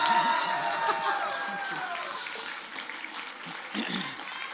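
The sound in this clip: Applause from a church audience welcoming a resident pastor to teach: dense, steady clapping that fills the whole stretch at moderate loudness, with no clear break.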